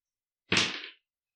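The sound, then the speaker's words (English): Two six-sided dice are rolled, a single short clatter that starts abruptly and fades within half a second, with silence around it. “So roll the 2d6.”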